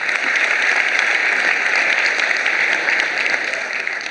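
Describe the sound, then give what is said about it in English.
An audience applauds to welcome a rabbi as speaker, a steady, dense wash of clapping hands that holds at an even level for the whole four seconds without voices. “So would you please put your hands together and give God a hand praise for my friend, Rabbi Ezray.”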